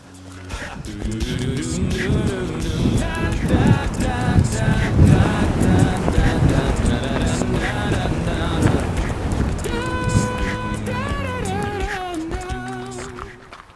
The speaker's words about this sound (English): Okay, so it seems I have a little bit of shelter from the wind here.